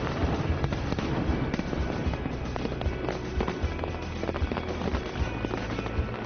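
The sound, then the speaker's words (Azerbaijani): Fireworks bursting over a waterfall at a weekend show, a dense, continuous barrage of crackling and popping over a steady low roar, with no pause throughout. “Həftənin cümə və bazar günləri isə şəlalənin üzərində atəşkəşanlıq olur.”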